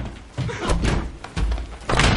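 A toilet door kicked shut in a thriller film scene: a few heavy, booming thuds and slams in close succession, loud and without speech.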